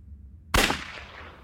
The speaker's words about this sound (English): He shoots.